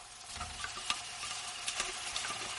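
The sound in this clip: Sizzling of something sweet frying in a restaurant kitchen: a steady crackling hiss scattered with many small pops and spits throughout.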